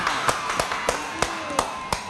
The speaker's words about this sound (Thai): ขอจะปรบมือให้โบนัสหน่อยค่ะ